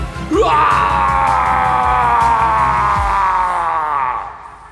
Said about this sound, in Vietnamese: Tiếng hét vang vọng khắp cánh đồng.